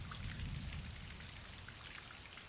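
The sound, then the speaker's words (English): Steady rain falling, a dense soft patter of drops over a low rumbling wash, quiet and even throughout with no voices. “Goddamn rain.”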